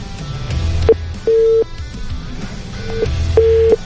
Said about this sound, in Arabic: ناخذ اتصال ثاني ونقول ألو. ألو.